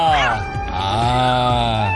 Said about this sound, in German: Schnell, kramt den Katzen-Content raus.